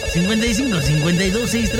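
Incoming-call ringtone on a telephone: a continuous melodic tone with smooth, wavering pitch glides, sounding loud and steady for the whole moment.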